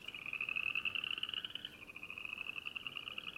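Southeastern chorus frogs calling: a faint, sustained, high-pitched trilling chorus that runs unbroken from start to finish, with a slight dip partway through and no voices.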